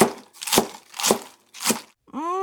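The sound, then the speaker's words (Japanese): A knife chops through cabbage in three crunchy, evenly spaced cuts, each ending in a dull thud on the board, followed by a brief rising tonal sound. “お母さん起きるまでキャベツ切り続けるわよ。キャベツ山盛りになっちゃうわよ。”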